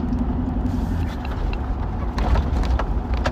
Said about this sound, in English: I'm actually driving down a street called Lincoln